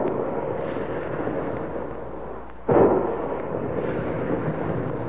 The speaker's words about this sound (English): Big guns, hear them?